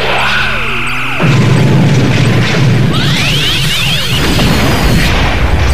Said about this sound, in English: Keep targeting the Corvette. We're showing them our weak side. Phasers fire. Phasers fire!